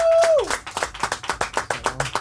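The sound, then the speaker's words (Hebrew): A studio audience claps for a contest winner in steady, evenly spaced claps that follow a short tone at the start. “חבר'ה, איפה הכפיים פה? לאיתמר קלט.”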